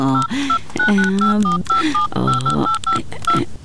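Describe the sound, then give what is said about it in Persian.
Touch-tone beeps as a telephone number is dialed on a keypad, a string of short, bright electronic tones at irregular intervals over continuous background sound. “تو باش که من یک کار کنم، بعد اجلا جان یک زنگ بزنم”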